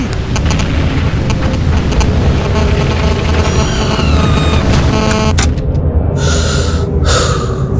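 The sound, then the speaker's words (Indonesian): Whistle of a falling 500 kg bomb: a thin tone sliding downward in pitch cuts through a loud, continuous roar of blast noise that changes abruptly near the end. “Dengar suara siulan itu. Kalau kamu mendengarnya, lari. Mereka menjatuhkan si hitam bom seberat 500 kilo tepat di koordinat.”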